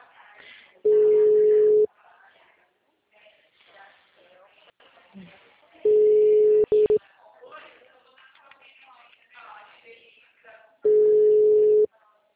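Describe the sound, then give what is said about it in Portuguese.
An outgoing telephone call rings out as a ringback tone: three steady, low-pitched tones of about one second each, spaced roughly five seconds apart, with a person talking quietly in the gaps. “Eu tô ligando FGTS aqui.”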